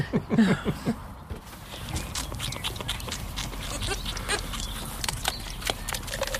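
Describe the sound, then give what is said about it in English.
Two hungry baby goats bleat at feeding time. A few short, wavering cries come early, over a continuous rustling, shuffling noise. “It's the sound of two very hungry baby goats at feeding time.”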